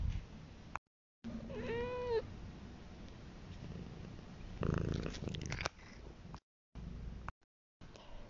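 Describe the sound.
A domestic cat meows once in a clear, wavering high cry over a steady low purring rumble, with a burst of rustling noise and brief silent gaps.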